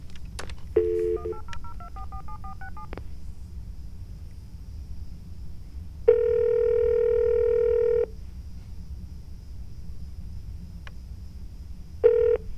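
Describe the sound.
Touch-tone keypad beeps as a 1-800 number is dialed on a telephone: a quick run of several short tones, then one long steady tone lasting about two seconds, and a final brief tone near the end, over faint hiss.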